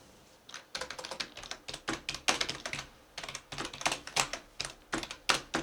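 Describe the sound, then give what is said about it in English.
Hunt-and-peck typing on a computer keyboard: many clacking keystrokes in an irregular, halting rhythm, coming in uneven bursts with short pauses and no talking. “learn how to type. I've never been a good typer at all. Never learned how to formally type. I taught myself, and it's all hunt and peck.”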